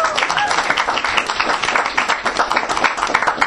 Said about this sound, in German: Das ist wirklich ein Applaus wert.